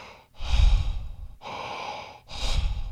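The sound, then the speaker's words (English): Clarity breathwork breathing, with deep, audible breaths flowing into one another with no pauses at the top or bottom, a few long airy cycles in a steady rhythm, loud and alone. “how to do the clarity breathwork, which is basically no pauses at the top and the bottom of breath. So it goes”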